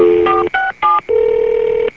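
Loud telephone keypad dialing tones during a casual phone call: a few short, clean beeps of differing pitch with brief gaps between them, then one longer steady tone.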